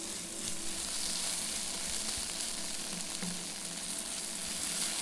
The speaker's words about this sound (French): on pousse un petit peu le feu pour faire dorer légèrement les oignons. Mais très légèrement, pour donner un petit goût d'oignon grillé.